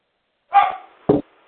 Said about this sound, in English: That's not Denise, that's the dog.